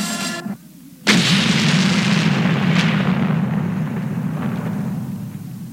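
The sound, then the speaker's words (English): A sudden, loud explosion bursts in after a brief quiet moment. It is a single sharp blast followed by a long, heavy rumbling roar that slowly fades over several seconds. “What was that? It sounded like something exploded.”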